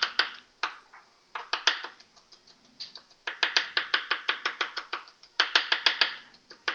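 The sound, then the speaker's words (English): A knife dices an onion into small pieces, giving many quick, crisp chops in a fast, uneven rhythm broken by brief pauses, with no voices over it. “Again, I'm dicing this onion up because I don't want any big hunks.”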